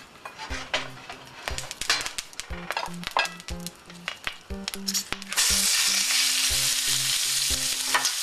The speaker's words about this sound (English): I heat up my frying pan on medium, and then when it's hot, add the oil, and then add the meat.